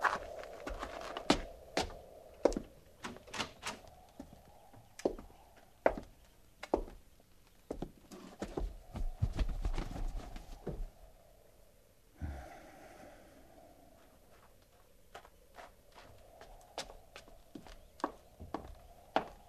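Horses snort and breathe heavily while being hobbled, with many sharp bursts and scattered thuds and shuffling steps spread unevenly throughout.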